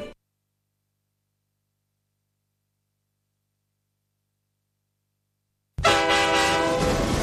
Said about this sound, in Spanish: Un vagón lleno de gente.